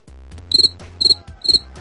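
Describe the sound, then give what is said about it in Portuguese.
Crickets chirping in short, high-pitched trilling pulses at a regular beat, four bursts in all, alone with no talk. “Grilos, grilos.”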